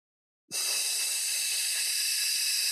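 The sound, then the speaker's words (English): A long, steady hiss of breath exhaled through the teeth, part of a calming breathing exercise for anxiety, starts abruptly and then holds evenly at a constant level with no other sounds. “and elongate that out, exhale, that hissing sound.”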